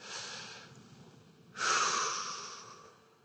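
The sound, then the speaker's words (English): A group of people breathes in deeply together, then breathes out: a soft, airy hiss that swells into a louder, rushing exhale before fading. “Everyone on the count of three, take a big, deep breath in and deep breath out.”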